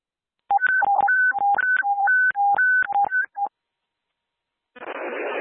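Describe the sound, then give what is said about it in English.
Touch-tone telephone dialing during a daily phone test at an airport communications center: a rapid run of many crisp beeps alternating between two pitches. After a brief silence, a burst of hissing static follows. “stand by for the daily phone test.”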